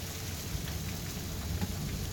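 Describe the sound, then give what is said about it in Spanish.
Heavy rain pours steadily during a storm with hail and lightning in Fray Luis Beltrán, Mendoza, making a dense, continuous hiss with a low rumbling undertone and no clear breaks. “ruido de lluvia. Llovía muy fuerte.”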